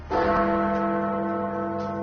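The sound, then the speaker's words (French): The great clock tower bell of Big Ben in London strikes ten o'clock on the night of the 2016 referendum vote. One heavy, deep strike is followed by a long, humming resonance rich in low overtones. “So Big Ben has struck 10 o'clock.”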